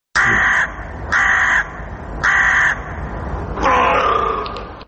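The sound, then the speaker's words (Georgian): A crow on a city street caws four times in a steady rhythm, loud and harsh, with the last call longer and rougher than the others. No voices accompany the calls. “ყვავიდა ყორანი, ლათინურად კორვუს. კრებითი სახელწოდება ბეღურას ნაირთა რიგის ფრინველებისა.”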